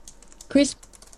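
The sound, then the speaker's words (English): Typing an email address on a computer keyboard: soft, quick keystroke clicks run throughout, with a louder cluster of key presses in the middle of the short burst. “Email first edit. Box asks for your email. I'll type it in.”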